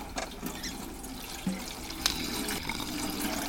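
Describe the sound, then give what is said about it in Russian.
Petrol pours from a large metal tap on a tank into a canister, a faint, steady splashing flow of liquid running for several seconds. “Откручивает большой металлический кран, идущий из цистерны. Наливает бензин в канистру.”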